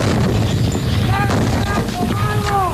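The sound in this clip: Gunfire in a dramatised 1982 Falklands War battle: a few sharp shots crack through constant wind-like noise, with shouting voices over them.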